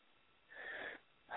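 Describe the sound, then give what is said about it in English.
A deep, slow breath, soft and airy, swelling for about half a second in a quiet clip, with another breath starting right at the end. “Good breath. That's kind of breath that heals. That moves the energy.”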